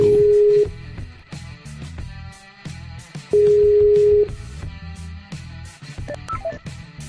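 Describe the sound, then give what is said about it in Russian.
Telephone call tones as a dropped call is redialled: two long, steady mid-pitched beeps separated by a pause, sounding over continuous busy background sound. “давай я сейчас попробую перезвонить”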